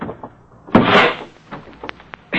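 The door of a wrecked car being forced open: a harsh, noisy scraping burst, then a few smaller clicks and knocks, and a final rough scrape at the end.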